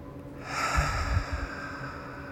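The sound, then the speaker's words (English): Exaggerated, deliberately audible breathing: one long, breathy breath swells up and eases off over about a second, soft and airy, with no talk. “Exaggerate every breath so you can even hear it.”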